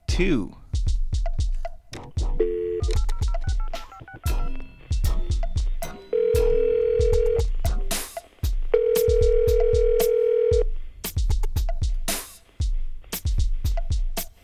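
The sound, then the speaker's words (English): Touch-tone dialing of a toll-free number gives quick keypad beeps over a run of rhythmic clicks, with two longer, steady tones held between the bursts. “So let's call 1-800-NUTJOB.”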